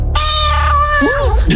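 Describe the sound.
A cat meows once in a single loud, drawn-out call with a clear, wavering pitch that bends near the end, followed by a short rustle.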